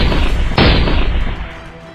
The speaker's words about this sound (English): At point-blank range, all the British guns opened fire.